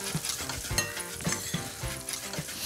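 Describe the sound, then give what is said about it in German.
Paprika powder, pepper and salt sizzle as they roast in a pan, a continuous frying hiss broken by rhythmic stirring scrapes and a few light clinks. “Hier haben wir noch Paprikapulver, ne? Machen wir auch ein bisschen mit dazu. Rösten ist auch immer lecker, wenn der Paprika so ein bisschen anröstet.”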